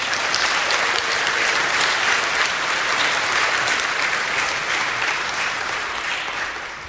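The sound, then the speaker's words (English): An audience claps steadily, giving a nervous guest a hand. The applause is dense and sustained throughout, tapering slightly at the very end. “So could you guys give her a hand and sort of calm her down?”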